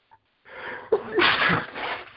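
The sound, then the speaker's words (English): A person sneezes: a brief catch of breath, then a sharp explosive burst followed by drawn-out, breathy, hissing noise, heard on its own without talk. “See, I sneeze.”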